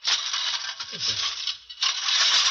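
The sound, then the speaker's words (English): A push lawn mower cutting grass with its grass catcher dragging makes a high, hissing whir. It runs in two stretches separated by a brief dip near the middle. “I'm cutting the grass”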